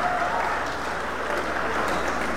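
An audience applauds the Lord during a Spanish-language sermon, a steady, dense wash of clapping that holds at an even level from start to end.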